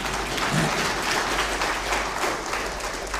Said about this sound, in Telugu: మీరు చేస్తారన్న నమ్మకం, ఇప్పుడు మీకు నమ్మకం ఉంటే కొట్టండి చప్పట్లు.